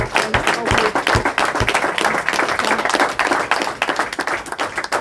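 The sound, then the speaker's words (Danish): Audience applause at a Danish studio programme: dense, brisk clapping from many hands, loud and sustained for the whole span, with sharp individual claps standing out from the continuous patter. “det var nok fordi der sådan skulle klappes”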